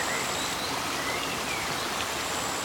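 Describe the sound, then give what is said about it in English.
Water flows with a soft, steady rushing hiss, even and unbroken throughout, quiet and calm with no distinct splashes or drips. “draw your attention to the sound of the water”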